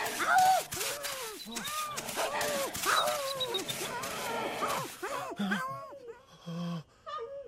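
Wolf-like wild animal cries: many short, arching whines and howls follow one another in rapid succession, loud and overlapping at first, then thinning out into a few sparser calls toward the end.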